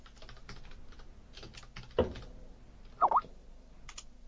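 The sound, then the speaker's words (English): Typing on a computer keyboard: a quiet, uneven run of soft key clicks, with a few sharper, louder taps standing out, and little else around them. “why are you just typing?”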